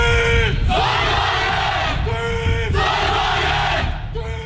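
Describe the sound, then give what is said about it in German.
A student solar car racing team shouts its battle cry together: loud, full-throated group yelling in a few forceful bursts, many voices at once with no other sound beneath. “So hört sich der Schlachtruf des Teams Sonnenwagen Aachen an, einem studentischen Team von RWTH und FH Aachen, das am Wochenende bei der European Solar Challenge im belgischen Zolder angetreten ist.”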